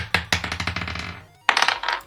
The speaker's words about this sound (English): So I'll roll initiative.